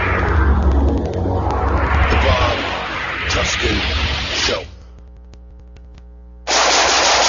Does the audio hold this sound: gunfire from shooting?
yes